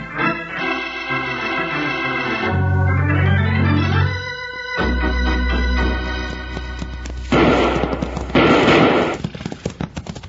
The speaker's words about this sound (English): Before they could draw their six guns, they were greeted with gun smoke and action in a town that knew only one man rule.